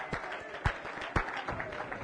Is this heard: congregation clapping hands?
yes